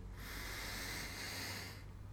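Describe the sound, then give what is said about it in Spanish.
A single deep inhalation during a guided breathing exercise: a steady, airy rush of breath that holds for most of two seconds and then cuts off. “quiero que respiremos juntos tres veces, profundamente. Inhalo.”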